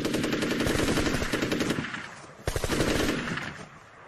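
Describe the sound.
Machine-gun fire in two rapid, loud, rattling bursts. The first runs about two seconds, then a brief gap, then a sharp second burst that tapers off, with no voices.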